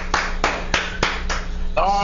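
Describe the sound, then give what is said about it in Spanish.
Hands clap in a quick, even rhythm, about five sharp claps roughly a third of a second apart, before a voice starts speaking at the end. “Un aplauso para Vigil, un aplauso”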